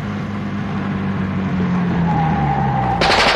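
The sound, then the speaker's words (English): Gunshots fired during a car chase in a radio drama: a steady car engine drone runs throughout with a faint humming tone, then a sudden loud, harsh burst of gunfire erupts at the very end. “Look out, Denny's got a gun.”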